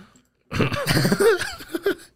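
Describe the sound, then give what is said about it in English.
Coughing and gagging from a person choking on a dry Big Mac burger: a loud burst of rough hacking mixed with strained voiced sounds, ending with a couple of sharper coughs. “while he chokes on his Big Mac right now, his dry ass Big Mac.”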